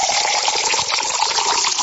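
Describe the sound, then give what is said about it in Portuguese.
Drinking water from a tap pouring in a steady, continuous rushing stream at an even, fairly loud level, with no voices over it. “E agora é aquela hora de tomar aquela aguinha, né? É, Cléber Egídio reclama que não tem café, mas aqui é água mesmo, é água boa. Vem lá da bica. Vamos tomar aí, ó.”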